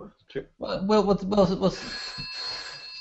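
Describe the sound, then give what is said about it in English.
A mobile phone ringtone sounds as a steady, bright electronic tone that holds to the end, following a short stretch of people talking. “you're ringing. That's my phone”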